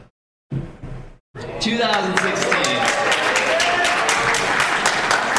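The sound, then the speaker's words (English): Audience round of applause during a talk about Pokémon games: a brief burst of sound and a short silence come first, then a sustained wall of clapping with voices mixed in. “ask audience who has Pokemon. But from the round of applause, yes.”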